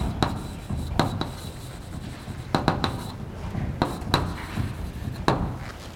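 Handwriting strokes make soft, steady scratching and rubbing, broken by a handful of sharp, brief taps as the writing implement meets the surface. The sound stays fairly quiet throughout.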